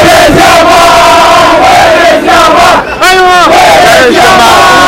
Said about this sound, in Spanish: Es la afición de Arabia cantando Where is Jamal, ¿dónde está Lamine Yamal?